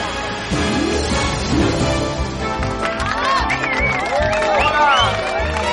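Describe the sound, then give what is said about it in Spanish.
Canned audience sound effect of a fake crowd, steady cheering and hubbub that swells after a quiet start, with shrill whistles rising and falling through the second half. “Qué buen ambiente con este público de mentira que tenemos aquí, de efectos especiales. Muchas gracias. Bueno, voy a dejar un momento el micro abierto porque me encanta escuchar esto.”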